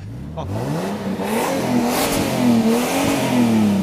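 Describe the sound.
A car engine revs loudly, its pitch climbing steeply at first, then holding high with repeated wavering surges as the throttle is pumped.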